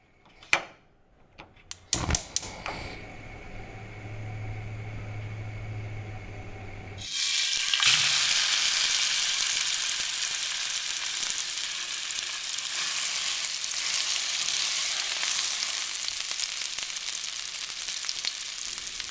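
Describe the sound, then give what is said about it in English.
Food frying and sizzling in a kitchen: a few sharp knocks and a low steady hum come first, then a loud, dense sizzle starts and continues unbroken to the end. “In this next piece, producer James Keyes explores the sounds of a kitchen and just how beautiful they can be.”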